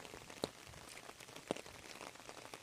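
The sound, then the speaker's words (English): Rain falling while someone walks outdoors in Eureka Springs, Arkansas: a faint, steady patter with a couple of sharper drops standing out. “About 11 a.m. walking along in the rain here.”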